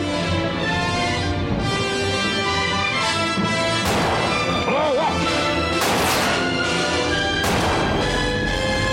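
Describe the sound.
A tank blows up in a film scene. A few heavy crashing blasts burst through a dense, rumbling soundtrack.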